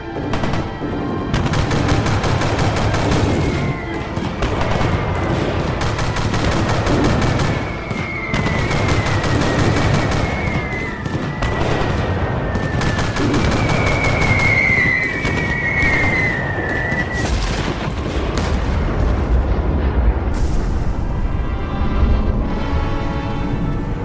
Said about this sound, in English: Everyone, open fire immediately. The further we blow it, the better. Now!